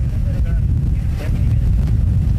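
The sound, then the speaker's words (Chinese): Strong wind from Typhoon Bavi buffets a seaside wharf at Qiuzhu village in Sandu town, Ningde, within its force-12 wind circle, as a loud, constant low roar of gusts that keeps going without a break. “我现在所在的位置呢是宁德三都镇的秋竹村码头。那么此刻呢，我们正处于台风巴威的12级风圈内，能够在这儿呢明显的感受到海边的风力已经在逐渐的这个大起来了哈。”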